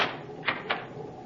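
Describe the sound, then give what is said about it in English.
A cabin door aboard a Navy cruiser is locked with two soft, quick clicks in close succession, faint and heard alone. “You may lock the door now.”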